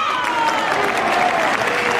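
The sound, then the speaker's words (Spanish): Applause from many hands, a thick, continuous patter at a strong, steady level with no break or clear swell through the brief stretch. “No sé para qué aplaudo, pero bueno.”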